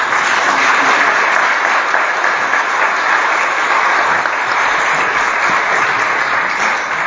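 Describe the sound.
Audience applause welcomes a priest as guest speaker at a Lenten evening talk, a dense, steady wash of clapping that holds at an even loud level for about seven seconds with no voices over it.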